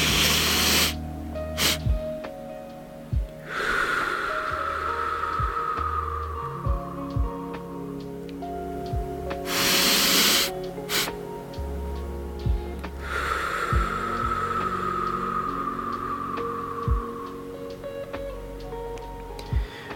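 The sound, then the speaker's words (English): Slow, deep breathing: two cycles, each a brief inhale followed by a long, drawn-out, hissing exhale that fades gradually. Soft sustained tones play faintly underneath. “And then you're going to release that air nice and slow, slower than you breathe in. So I'll show you how it goes for the first time.”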